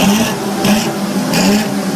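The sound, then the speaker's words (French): A 12-cylinder Ferrari car engine revving: a loud, continuous roar with a few rhythmic surges of intensity, and no voices over it. “Von Karajan m'a dit un jour, écoutez, le moteur de votre voiture à 12 cylindres procure une harmonie qu'aucun maître ne pourra jamais reproduire”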